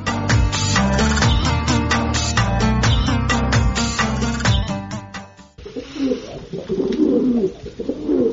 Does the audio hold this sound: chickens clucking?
no